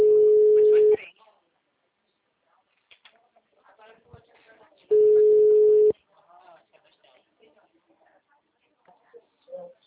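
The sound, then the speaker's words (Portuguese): Telephone tone heard after a dropped call: two long, steady mid-pitched beeps about four seconds apart, with faint scattered sounds in the quiet gap between them. “É o Marcos, a ligação do senhor caiu, ficou muda”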